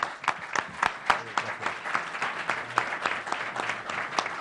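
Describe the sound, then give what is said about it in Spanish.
Audience applause as a business-forum crowd sends off a company president at a live radio event: dense, steady clapping with sharp individual claps, moderately loud and continuous for the whole stretch, with no talk over it. “despedimos al presidente CEIN con un aplauso”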